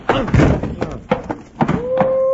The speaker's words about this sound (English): He won't wake up till about 10 minutes after sundown, Bill. You really smacked him.